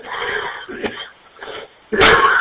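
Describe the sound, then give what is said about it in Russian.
A man coughs over a narrow-band radio link, giving a few harsh, throaty bursts separated by short gaps, with the last cough the loudest. “Прошу прощения, закашлялся.”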